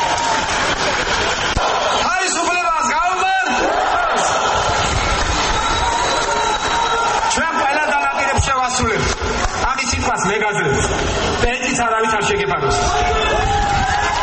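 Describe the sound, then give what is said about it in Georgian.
Crowd shouting and cheering to greet Georgian Dream coalition leader Bidzina Ivanishvili at an election rally. The roar of many voices is dense, loud and continuous throughout. “მალე სცენაზე კოალიცია ქართული ოცნების ლიდერი ბიძინა ივანიშვილიც გამოჩნდა, რომელსაც ხალხი შეძახილებით შეხვდა.”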